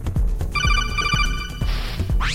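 Telephone ringtone: a rapid, pulsing electronic trill lasting about a second, set over a steady low rhythmic beat, with no talk.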